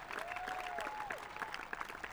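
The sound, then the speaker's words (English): Quiet, steady audience applause at a live show, honoring a man after a spoken tribute. It holds evenly for the whole stretch, with some thin, sliding tones above the clapping. “Round of applause, please.”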